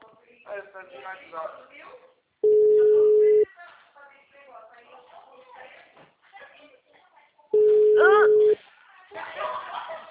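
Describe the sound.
Two long, steady ringback tones from a telephone call placed by accident, each lasting about a second and separated by stretches of people talking.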